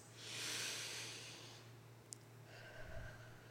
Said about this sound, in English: And we take a deep breath.